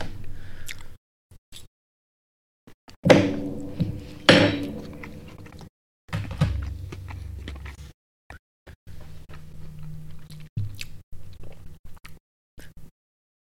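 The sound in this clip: Knife cutting into a spicy chicken wing, with clinks, squishy bites and chewing: a few louder sharp impacts among softer wet crunching, separated by short quiet gaps.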